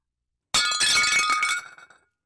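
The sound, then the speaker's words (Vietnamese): A teacup held in the hand shatters: one sudden, bright crash of breaking china with glassy clinks and tinkling fragments that ring on briefly and fade out, alone without talk. “Chén trà trong tay Duyên vỡ tan tành khi nghe câu hỏi kinh dị của ông Chánh Tổng.”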